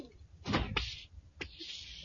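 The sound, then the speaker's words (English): A door being opened in a tense scene where a flamethrower is kept ready: a few heavy clunks and scrapes of the door moving, then a steady high hiss that carries on to the end. “Stand back while I open the door.”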